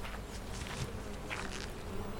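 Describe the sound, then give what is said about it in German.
Bees buzz at a beehive in a dense, continuous drone of overlapping wings that stays steady throughout, with no talk. “ich wollte gerade nach den Bienen schauen.”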